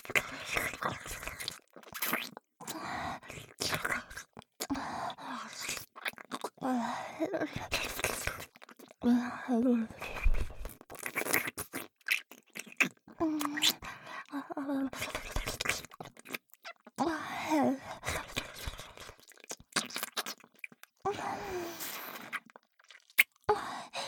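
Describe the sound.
ASMR mouth sounds of licking and biting form an irregular stream of many wet clicks, smacks and nibbles, with soft whispering running throughout.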